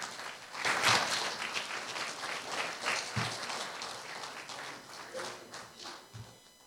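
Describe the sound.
An audience applauds to welcome a speaker at a church service, the clapping swelling quickly, holding, and then thinning out toward the end.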